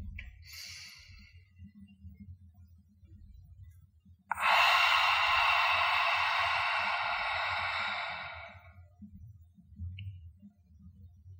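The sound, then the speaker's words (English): A deep breathing exercise: a long, steady breathy exhale through the mouth, like fogging a mirror, lasts about four seconds and fades at the end. A shorter, softer breath comes before it, over a faint low hum. “exhale through the mouth, making a sound like fogging a mirror. Exhale completely. Go ahead, breathe in.”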